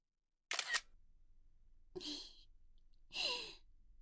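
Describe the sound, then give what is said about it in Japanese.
A camera shutter firing once to take a photo, a sharp double click, followed by two soft, breathy sighs in a quiet setting. “ねえ、あなたも一緒に写真撮ろう。撮るよ。”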